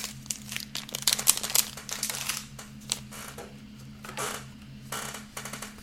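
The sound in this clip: Crinkly plastic handling of a larger top loader card holder while opening trading card packs: many quick, irregular crackles and soft taps, with louder bursts in the first half before easing into lighter rustling.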